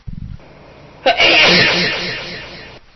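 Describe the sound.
A person sneezes once, a sharp explosive burst that trails into a breathy hiss and fades out. No other voices are heard.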